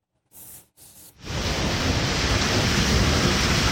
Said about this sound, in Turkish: Güneydoğu Anadolu bölgesinde etkili olan sağanak yağışlar hayatı durma noktasına getirdi.